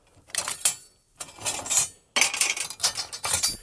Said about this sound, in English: And then I can go like grab a sharper knife